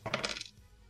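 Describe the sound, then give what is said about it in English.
Small dice clatter on a table during a tabletop role-playing game: a quick, faint burst of several hard clicks and rattles lasting about half a second, then fading to near quiet. “Wait, no, wrong dice. Okay, 1d4 plus 2, so I rolled a 4.”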